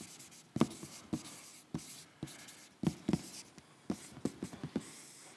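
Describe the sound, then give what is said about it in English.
The word 'compromise' is written on a board: quiet, irregular strokes and short scratchy squeaks of a marker, grouped in brief bursts with small pauses between letters. “I'm going to write it. It says compromise.”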